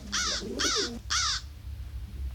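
A crow cawing three times, each a harsh, hoarse call of about a third of a second at an even, steady pace, over a low, continuous background rumble.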